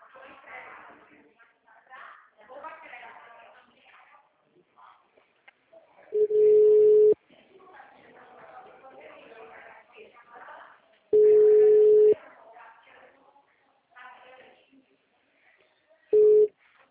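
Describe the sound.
Telephone tone after a call that could not be completed: three steady mid-pitched beeps, each about a second long and the last cut short, separated by stretches of a recorded voice message.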